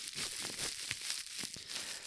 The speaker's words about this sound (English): do you want to reach deep into that prize draw and pull out two names?